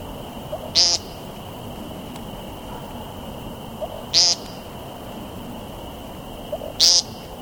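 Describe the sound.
A bird's nasal, buzzy ping call given from the ground, three short calls spaced a few seconds apart over faint, steady background noise.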